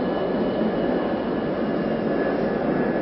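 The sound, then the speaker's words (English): Jet aircraft engines roar at a busy airport at night, a loud, steady, unbroken wash of noise that holds at one level throughout with no voices over it. “The airport's really busy tonight.”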